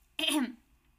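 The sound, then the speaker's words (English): One short throat clear from mucus caught in the throat, a quiet rasping burst that stops quickly and is followed by near silence. “sorry, I'm like talking way too much and getting mucus caught in my throat.”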